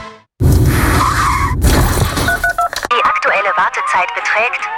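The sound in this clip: Car accident sound effect: a loud, rough burst of tire skidding and crashing noise lasting about two seconds, then a few short electronic beeps, followed by a voice talking.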